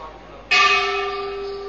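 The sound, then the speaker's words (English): A single bell struck once rings out with clear sustained tones that linger and slowly fade over a low, steady background. “see, the bell rings.”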